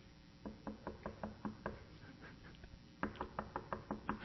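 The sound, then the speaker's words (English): Knocking on a door, as Peter keeps rapping at the gate of a house where a prayer meeting is held: two runs of quick, evenly spaced knocks separated by a short pause, fairly faint. “so they continued knocking.”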